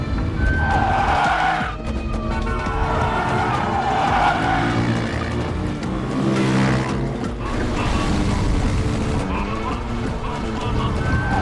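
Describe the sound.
A car speeds along during a chase, its engine roaring continuously and loudly while the tires squeal and skid throughout.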